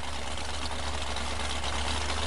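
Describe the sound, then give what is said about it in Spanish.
An outboard motor on a Zodiac inflatable boat runs at a steady idle, a loud, even rumble with a hissing upper edge and no break for the whole stretch. “Espera un momento que arranco el motor, a ver, que arranco,”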